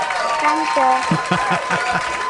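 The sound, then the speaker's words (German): Applause for a young girl about to begin circus training, a dense patter of clapping that runs through the whole clip beneath a voice carrying over it. “Das heißt, hier kommt schon mal ein Applaus für dich.”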